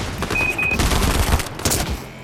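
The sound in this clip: Video game gunfire in quick, dense bursts of loud, sharp shots, with a short high electronic beep early on.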